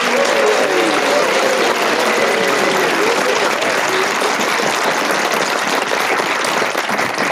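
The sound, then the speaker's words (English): Studio audience applause welcoming the four players of a panel show, a loud, sustained roar of clapping that holds steady and tapers only slightly near the end. “Please welcome all four of them.”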